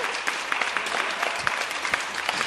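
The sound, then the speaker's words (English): Live studio audience applause, dense and sustained, with individual sharp claps standing out over the steady wash. “Monster of the Week is filmed before a live studio audience.”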